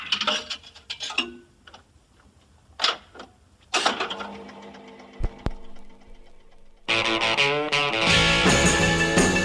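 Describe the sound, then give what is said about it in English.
A quarter drops into a jukebox: clattering, rattling mechanical clunks and scrapes come in bursts, then music starts abruptly and stays loud to the end. “So let's drop a quarter in the jukebox.”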